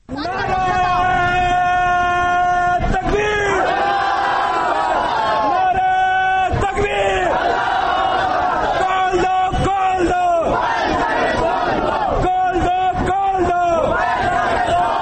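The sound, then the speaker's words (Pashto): Thousands of protesters at a market rally shout slogans against a mobile phone ban. The voices form a loud, continuous chant in unison, with rhythmic breaks between phrases. “دغه نارې د هغه لاریونونو یوه کړي ده چې د تیرو 1900 میاشتو نه د زلابنو په ډګر د موبایل بندیز پر ضد په بیا بیا دوام لري.”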